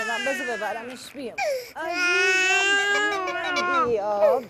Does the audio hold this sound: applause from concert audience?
no